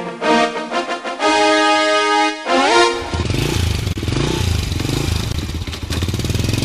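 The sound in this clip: Motorcycle engines rev loudly as three motorcycles make acceleration pulls on a road. The pitch rises and falls in throttle blips, then settles into a rough, rattling, steady engine drone.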